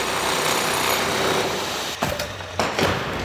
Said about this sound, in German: MDR Thüringen-Reporterin Katrin Welzel hat sich fürs Fazit vom Tag mal auf der Baustelle umgeschaut. Das Lindenau-Museum klingt. Leise in der zweiten Etage und laut im ersten Obergeschoss.